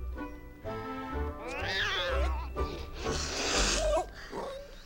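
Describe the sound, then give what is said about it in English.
A cat meows near a white picket fence as a puppy rounds the corner: a few drawn-out, wavering yowls rise above a steady low rumble. “A cat lies around the corner of a white picket fence.”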